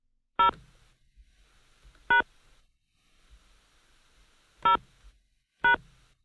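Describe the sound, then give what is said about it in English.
Telephone keypad tones entering a phone number at an automated phone prompt: four short, bright beeps at irregular intervals over a faint, quiet background. “Please enter the 10-digit phone number, including area code, that you were contacted on now.”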